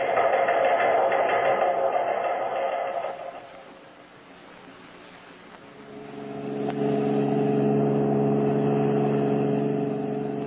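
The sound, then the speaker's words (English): A car drives along with a steady engine hum that dips and softens midway, then swells back to a fuller, lower drone for the rest of the stretch. “Believe killer Red Beaver and pal Ricketts are driving toward Kansas City.”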